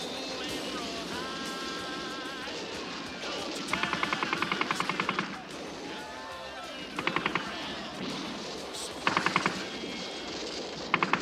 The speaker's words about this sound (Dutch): Er wordt hier verdomme in huis geschoten.